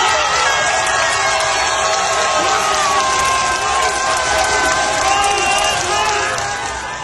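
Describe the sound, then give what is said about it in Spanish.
Football fans of all ages cheer, shout and celebrate goals by the Mexican national team during a World Cup 2026 group match, filling a street corridor of restaurants and bars in Mexico City. The roar is loud and continuous, a dense wash of many voices. “Los gritos, las porras y festejos de los aficionados de distintas edades hicieron vibrar el corredor de Reforma y Avenida Juárez”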